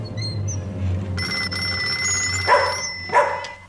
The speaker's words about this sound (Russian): Ты что, Рита? Что случилось? Телефон? Ночь, кому же я понадобился?